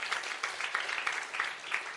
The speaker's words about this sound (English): give him a round of applause.